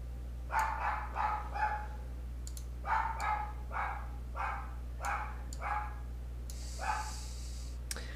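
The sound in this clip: A dog barks repeatedly in short, sharp bursts, spaced irregularly over a low steady hum, with a brief high tone near the end.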